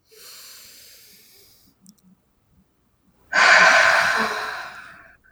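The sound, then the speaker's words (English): Deep breathing during a guided tapping and self-forgiveness exercise: a soft, airy breath is followed after a short pause by a louder, fuller rush of breath that slowly fades. “Good. Deep breath.”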